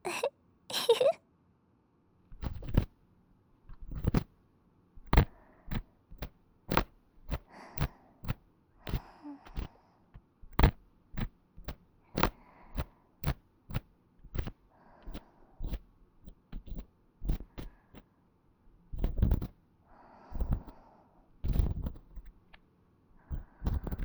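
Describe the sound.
Close ear-cleaning sounds in the left ear: many brief, soft scraping and rustling strokes in an irregular rhythm, quiet and separated by short silences.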